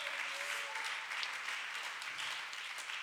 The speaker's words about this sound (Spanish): Denle fuerte aplauso a mi rey con el corazón, hermano. Fuertes aplausos